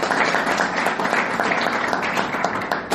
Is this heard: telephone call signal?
no